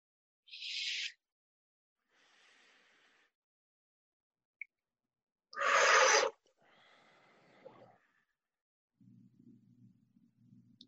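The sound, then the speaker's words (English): Deep inhales and exhales during a guided relaxation exercise, a few breathy bursts separated by silent pauses, one sharper, louder intake standing out in the middle and a softer, lower exhale at the end. “Now we're going to th- do three inhales and exhales. And with those three, I want you to release as much tension as you can. Okay? So start the first one.”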